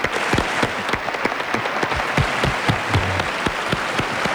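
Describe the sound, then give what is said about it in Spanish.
Applause from an audience welcoming two young radio presenters on a live radio programme: dense, steady clapping throughout, with no talking over it. “Un aplauso muy grande para dos jóvenes extraordinarios talentos de la radio.”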